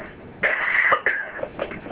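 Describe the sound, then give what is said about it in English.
A person at the tail end of a cold coughs in a few rough, throaty bursts, a longer one followed by a second sharp one, then trailing off into softer throat-clearing sounds. “Excuse me, I'm going to cough for just a second.”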